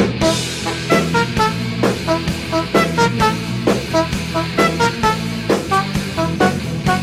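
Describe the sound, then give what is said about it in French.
Rubber bulb air horns like those on early cars, played as musical instruments in a metal song cover: loud, rhythmic honking notes repeating at a steady pulse throughout. “c'est des trompes à air, tu sais, c'est une klaxonne avec une poire en caoutchouc qu'on utilisait sur les premières voitures et qui servent aujourd'hui d'instruments de musique”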